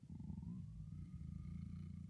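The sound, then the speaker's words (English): A black cat purring by a fire, a soft, steady, low rumbling purr that continues without a break throughout. “When he woke up, a black cat was sitting near the fire. It stared at him for a while. Then it purred.”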